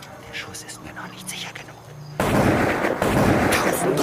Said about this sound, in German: Er hatte so schnell, dass ich es nicht hindern konnte, angelegt und den Schuss abgegeben. Den zweiten schickte er sofort nach